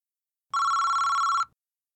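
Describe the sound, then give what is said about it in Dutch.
Telephone ringing as a call is placed to a care home: a single electronic ring burst of about one second, bright and steady in pitch, heard alone in otherwise silence. “Nadja Farzan belt naar zorgcentrum De Dennenhoek over vrijwilligerswerk.”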